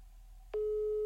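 A telephone line tone sounds while someone places a call: a faint tone gives way partway through to a loud, steady tone that holds to the end.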